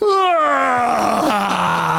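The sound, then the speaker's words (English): A voice imitates a small boy's very loud yawn at a wedding ceremony: one long, groaning vowel that slides steadily downward in pitch and stays loud and unbroken for about two seconds. “my son let out the loudest yawn. He just goes,”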